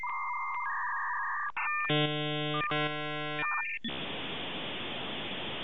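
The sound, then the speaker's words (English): Electronic tones of a phone call being dialed and connecting: a few steady beeps, then two buzzy harmonic tone bursts with brief breaks between them, ending in a continuous loud hiss. “let's let's dial him up and uh, talk to Jason”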